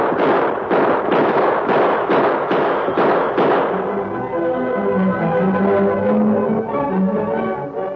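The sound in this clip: Gunshots ring out in a western shootout: a rapid series of sharp, loud bursts over about three seconds, followed by a sustained tonal sound.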